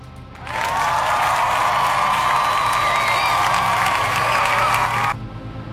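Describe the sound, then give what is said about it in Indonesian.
Audience applause and cheering after a poll result is announced on a talk show. A steady wash of clapping and crowd noise starts suddenly, holds at an even level for about four and a half seconds, then cuts off abruptly. “Kita kasih tepuk tangan ya.”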